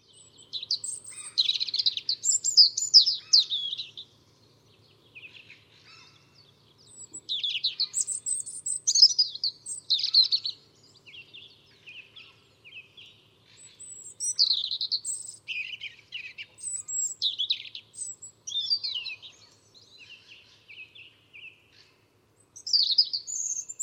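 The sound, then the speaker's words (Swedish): A European robin sings a series of high, thin warbling phrases, each a few seconds long and separated by short silent pauses, alone with no other sounds. “Röd hake.”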